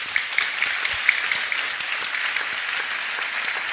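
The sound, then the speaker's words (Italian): Audience applause welcoming a guest, an American political scientist, onto the stage: dense, even clapping that holds steady and fairly loud throughout, with no voices over it. “L'altro ospite che saluto e vi chiedo di salutare con un applauso è Michael Drissen,”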